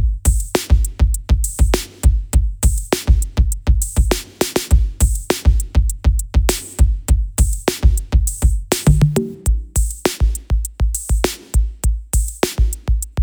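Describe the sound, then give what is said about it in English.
A drum machine beat with hi-hats plays in a steady, loud, tightly repeating pattern: punchy low kick thumps interlock with crisp high ticks, running alone without any voices. “I added some hi-hats here to the beat. Again, staying totally within the drum machine realm. Everything together for the drums sounds like this.”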